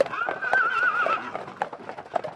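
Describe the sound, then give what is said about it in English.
Horses let off a ferry onto Mackinac Island whinny and clip-clop: a high, wavering neigh lasting about a second rides over a busy clatter of hooves, which keeps going after the call fades. “When they reach the island and are let off the ferry, the horses are restless. They're ready to go.”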